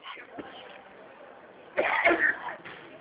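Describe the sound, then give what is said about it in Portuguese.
Coughing after choking during a phone call, a short cluster of harsh, thin coughs bursting out midway after a quiet stretch, then fading. “engasguei, desculpa”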